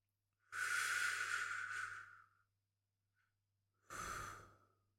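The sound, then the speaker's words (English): Slow, soft breathing in and out: one long breath, then a pause, then a second shorter breath, quiet and alone. “just breathe. In and out. Just breathe.”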